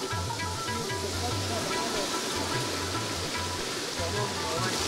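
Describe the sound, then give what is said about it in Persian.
Fast water rushes downhill beside a water mill in a village farming area, making a steady, loud, hissing roar that never lets up, while a voice speaks over it. “نام خدا چقدر آب اینجا تیز میایه از بالا آب میایه طرف پایین”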